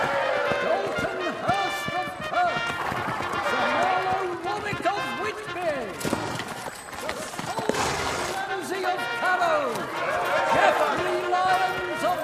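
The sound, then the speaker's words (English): Hooves of armored knights' horses clop out in single file through an open castle gate, a steady trotting rhythm that runs under crowd chatter and voices. “Cole, the taller young knight, tails the single-file procession. The armored men ride their horses out of the open castle gate.”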